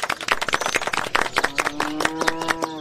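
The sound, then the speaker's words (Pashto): Scattered hand clapping from an audience at a village gathering about a planned cultural centre, heard as a run of quick, uneven claps, with a voice joining over the later part. “وایم کور مو له غلې ډک شه، وایم لاسونه ورته وپړکا وای.”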